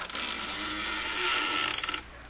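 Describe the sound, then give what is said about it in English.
A key grinds in a stuck, rusty door lock, a faint, steady scraping creak lasting about two seconds that ends in a quick run of small mechanical clicks. “I have a key here somewhere. Oh, good. Oh, yes. It's stuck. Rust. Yeah, very likely. And now it's coming.”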